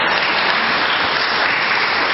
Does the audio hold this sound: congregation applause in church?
yes